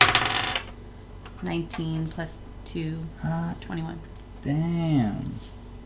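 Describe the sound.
Dice clatter across a table in a quick rattle as players roll initiative during a tabletop fantasy game, followed by several people talking.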